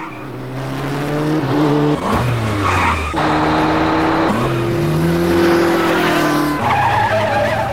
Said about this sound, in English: He flies over parked cars, then drives between two coaches, missing their sides by millimeters.